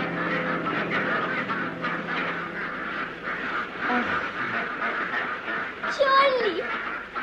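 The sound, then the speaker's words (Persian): A flock of ducks quacking in a steady, busy chorus: many overlapping nasal quacks that repeat continuously at a fairly loud level throughout. “نه بری، چقدر اردک اینجاست.”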